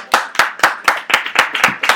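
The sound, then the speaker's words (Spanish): Clapping for a quiz participant at a talk, crisp claps in an even beat of roughly four per second, loud and sharp, with nobody speaking over them. “¡Un aplauso!”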